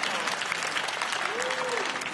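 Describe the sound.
Church audience applauding: dense, continuous clapping at an even level throughout, with a voice faintly audible over it.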